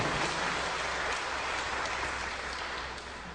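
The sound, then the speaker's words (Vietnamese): An audience at a lecture breaks into sustained applause, a dense, steady wash of many hands clapping that holds evenly and eases off slightly toward the end. “Quý vị vỗ tay cho chính mình nào.”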